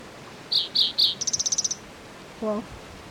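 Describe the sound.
Bird calls: three clear high chirps, then a rapid high trill of short notes, followed by a single lower, harmonic call.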